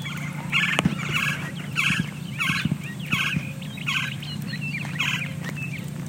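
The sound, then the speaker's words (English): A Gila woodpecker in a desert neighborhood calls in a series of short, harsh, rolling notes. They repeat at a steady pace, each burst evenly spaced and fairly loud above a low background rumble. “That is the Gila woodpecker.”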